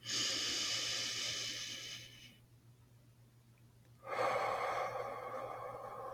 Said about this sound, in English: Take a moment to breathe in and let it out through your mouth. Breathe in again.